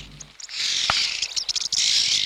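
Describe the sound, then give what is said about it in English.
Red-billed oxpecker calling: harsh, hissing rasps and chirps come in a few uneven bursts, fairly faint, with no voices. “The red-billed oxpecker.”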